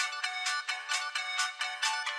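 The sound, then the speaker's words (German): Phone ringtone playing Jingle Bells: a quick, bright electronic melody of many short repeating notes in an even, bouncy rhythm, sounding alone with no talk. “Also wer seinen Klingelton auf Jingle Bell eingestellt hat, der ist es.”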